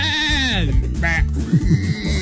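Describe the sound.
Goat bleating, one wavering cry that drops in pitch at the start, followed by voices talking and a few short vocal sounds.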